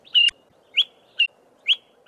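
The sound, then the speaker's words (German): A small grey-brown bird of southern Africa that leads people to wild beehives calls in short, high chirps. About five evenly spaced notes ring out alone over near silence, and the last one is cut off. “Der kleine, graubraune Vogel fliegt ein Stück voraus, setzt sich auf einst, ruft dann wieder.”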